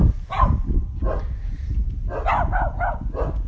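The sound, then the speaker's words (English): Several dogs barking: many sharp, overlapping barks and yips come in quick bursts, fairly loud over a low rumbling background, with the densest flurry in the second half. “Sometimes you gotta be okay with a lot of dogs barking at you.”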